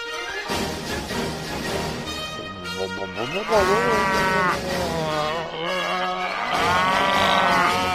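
Cattle mooing in a stable, with a few long, loud lowing calls that swell and fade one after another over a steady background murmur.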